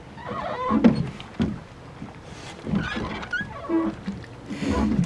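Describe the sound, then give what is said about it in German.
Oars working a rowing boat as it pulls away from a jetty, producing irregular watery swishes and splashes with a few knocks, fairly quiet and uneven in rhythm. “Dann rudern wir mal los.”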